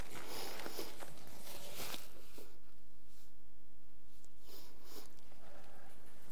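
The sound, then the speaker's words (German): Sniffing and rustling of a paper tissue as a person wipes their nose: a few noisy bursts at the start and again near the end, with quieter stretches between. “Ich nehme mir mal ein Taschentuch, ihr entschuldigt.”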